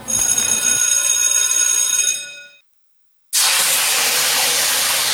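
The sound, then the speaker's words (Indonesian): Hot cooking oil sizzling, a loud, steady, harsh hiss that starts abruptly after a brief silence; before it, a sustained bright tonal sound fades away. “Aduh, kecipratan minyak panas nih. Aduh, perih.”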